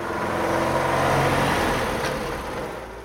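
A car speeding around a square, a continuous broad engine and road roar that swells through the middle and then eases off, with no voices.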